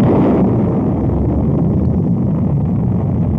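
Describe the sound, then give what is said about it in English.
Rocket engines igniting at launch, likened to a million gas jets spurting, give a deep, loud, continuous roaring rumble that holds steady throughout with no voices. “a sound like a million gas jets spurting. A great orange fire blossoms at its base, and slowly, with a painful push against gravity, the rocket begins to rise.”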